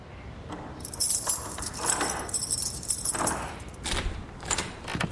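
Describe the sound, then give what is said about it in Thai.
Keys jangle and a key works to unlock a locked bedroom door. A few bursts of metallic rattling and clinking come in uneven waves over low background noise. “พ่อไขกุญแจเข้ามาในห้องผมเลยเหรอ ก็เราล็อกห้องไงถ้าพ่อไม่เอากุญแจไปไขจะเข้าห้องมาเห็นเราได้ยังไง”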